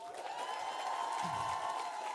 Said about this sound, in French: Il y a énormément de gens qui travaillent ici sur ce podcast et sur cette soirée, donc on peut leur faire une ovation, s'il vous plaît.